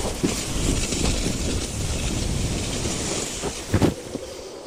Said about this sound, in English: stretch your legs out in front of you, and let's slide to the other side together. Ready, set, go!